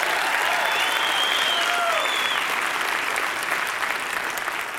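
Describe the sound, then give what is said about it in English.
Audience applause for a preacher at a church service: steady, dense clapping from a large crowd that holds at a constant level for the whole stretch and eases only slightly at the end, with no clear talk over it. “Did a great job. Give him a great hand.”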